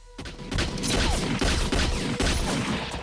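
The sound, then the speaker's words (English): Heavy crossfire gunfire during a shootout as people run for a car, with many loud, rapid overlapping shots and bangs continuing throughout. “Shaft and Diane make for Rassam's car in a hail of crossfire bullets.”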